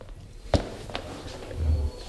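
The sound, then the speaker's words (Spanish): Footsteps of someone running into a press room after a football match, heard as a couple of sharp thuds early on and then a low, rumbling shuffle, with no talk. “¿Qué viene corriendo o qué? Con los pasos y todo.”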